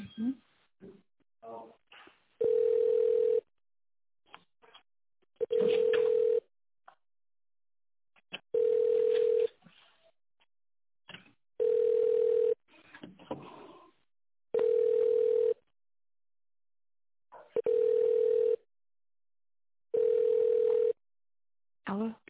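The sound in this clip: Ringback tone on a telephone line while a call is being transferred: seven steady, mid-pitched tones repeating about every three seconds, with voices and other faint sounds in the gaps between them.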